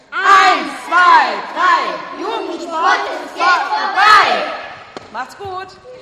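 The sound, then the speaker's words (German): Group battle cry shouted by a children's course at a farewell in a gym: loud, rhythmic bursts of voices calling out together in unison, then softer, scattered shouts and knocks near the end. “Jetzt gibt es hier eine Verabschiedung in der Turnhalle vom Kinderkurs. Da gibt es noch einen Schlachtruf, wurde mir gesagt, den wollen wir natürlich hören. Hände werden aufeinander gelegt.”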